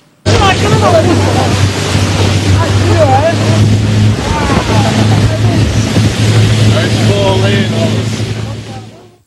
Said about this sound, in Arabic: من جنوب القارة الأفريقية تحولت بوتريب سياحية للحظات مرعبة من بعد ما فرس النهر صار يلاحق السواح بسرعة بالماء وبالنهاية قدروا يهربوا منه والفيديو انتشر بسرعة على السوشيال ميديا.